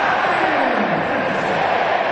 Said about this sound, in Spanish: El juego que mira su cronómetro va a autorizar, señores, y el público acompaña cuenta regresiva.